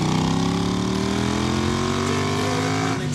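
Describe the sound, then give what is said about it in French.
A new Triumph motorcycle engine runs as a loud, steady droning hum, its tone climbing slowly and smoothly in pitch over a few seconds. “Et la boîte de vitesse, très douce aussi sur ces nouvelles Triumph.”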